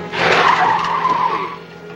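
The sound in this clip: Car tires skidding and squealing through a hard left turn: one loud, continuous screech lasting about two seconds that eases slightly toward the end, with no voices.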